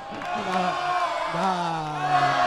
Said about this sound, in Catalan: El públic anima Marc Vila.